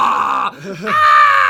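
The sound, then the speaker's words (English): A voice imitates a monster's scream: a loud, drawn-out growling roar that breaks off briefly in the middle, then resumes and holds steady to the end. “My dad would stomp around the house and scream like a monster. Like to anybody, any outside observer, it sounded like we were being abused, because all you'd hear is,”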